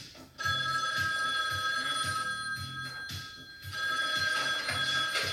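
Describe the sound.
A telephone rings on the line after a number is dialed. The rings repeat in a steady pattern with a short lull between bursts, fairly quiet, and no one talks.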